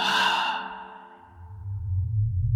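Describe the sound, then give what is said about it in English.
A voice imitates someone breathing out right next to an ear: a long, breathy, slightly voiced exhale that fades over about a second. A low rumble rises underneath as it trails off. “And then right next to my ear, I hear someone just breathe out like,”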